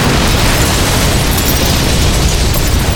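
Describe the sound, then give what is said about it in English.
A giant powder blast blows open a vault, tearing off half a roof and knocking down a wall. It is one loud, continuous roaring rumble that fills the whole stretch at full level. “The force of the giant powder exploding sent half the roof flying off and blew one wall completely down.”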